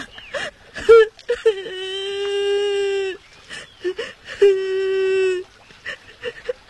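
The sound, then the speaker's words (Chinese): A child cries and sobs: short choking sobs break between two long, high, drawn-out wails. “小朋友啊，怎么了？为什么在这儿哭啊？啊，别哭了，别哭了。”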